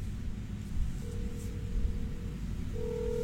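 Telephone ringback tone on an outgoing call, two long, faint, steady tones over a constant hiss of background noise.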